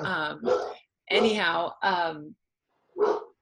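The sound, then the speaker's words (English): Dogs bark in short, loud, tonal bursts, five in all. The first four come close together, then a pause precedes the last one. “I'm sure you can hear my dogs in the background. I can't control that.”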